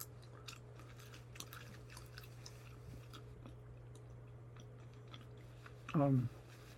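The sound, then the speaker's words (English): Soft, faint chewing of xylitol gum, steady wet smacks over a low hum, with a brief voiced sound near the end. “I'm chewing some gum for my teeth. Xylitol.”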